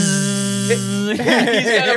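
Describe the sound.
A voice imitates a bee buzzing: a steady, droning hum held for about a second, then breaking into wavering, warbling vocal sounds.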